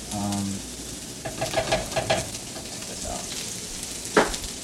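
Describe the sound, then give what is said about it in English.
Sizzling and stirring as rice and chives are sautéed in sauce in a pan. A steady, hissing fry runs throughout, with scraping and stirring bursts on top and a sharper clatter near the end. “Rice, chives, sauce. Should I start sauteing in the sauce already?”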